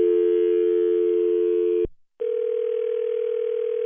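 Telephone tones as a call is dialed back: a steady dial tone holds, drops out briefly, then a slightly higher steady tone resumes until the end.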